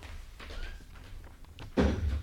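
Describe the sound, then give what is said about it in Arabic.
A door being closed lands as a single dull thud near the end, after a stretch of faint low background. “اقفل الباب وراك يا معتوق.”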